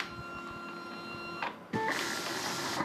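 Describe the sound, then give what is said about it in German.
A plotter prints sewing patterns in a small clothing label's workshop: a steady mechanical whir with thin humming tones, a brief dip and pause, then a louder, brighter run of the carriage that continues to the end. “Doch immer druckt der sogenannte Plotter Schnittmuster aus.”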